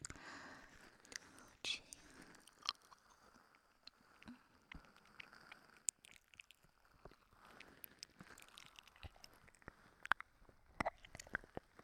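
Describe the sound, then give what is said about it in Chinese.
Eating sounds close to the ear: quiet, frequent soft bites, crunches and wet chewing clicks in an uneven rhythm, with whispering heard throughout. “在你的耳边吃，我要诱惑你， 我看你吃不吃。”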